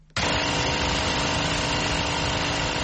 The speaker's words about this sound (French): Un générateur alimente le moulin à farine de la boulangerie Obili, un quartier de Yaoundé.